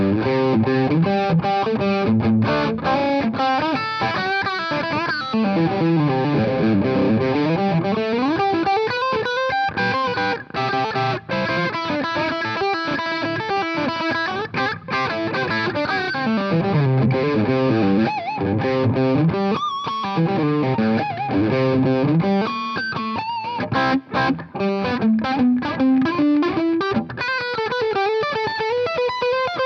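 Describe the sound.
Distorted electric guitar lead tone with compression, played as fast, dynamic chicken-picking phrases full of bends and sustained notes, steady and loud throughout with no voices.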